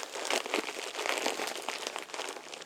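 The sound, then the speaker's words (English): Soft crinkling and crackling of a disposable diaper's plastic as it is taped up snugly, coming in short, faint bursts with no talk over it. “Let's get this diaper all taped up nice and snug.”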